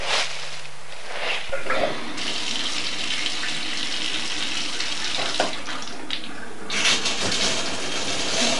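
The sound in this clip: Water running for washing, a steady, loud rushing and splashing that continues unbroken through the whole clip, with no voices.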